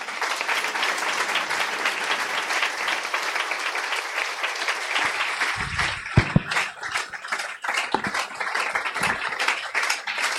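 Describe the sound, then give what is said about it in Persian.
An audience claps in steady, dense applause that continues throughout, with a few louder hand smacks standing out toward the end. “بیا دست بزنیم.”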